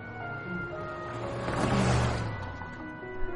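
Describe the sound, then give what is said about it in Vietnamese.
A car drives away toward the city, its engine noise swelling to a peak midway and then easing off, with steady tones running underneath. “Tiếng xe khởi động và đi khuất về phía thành phố.”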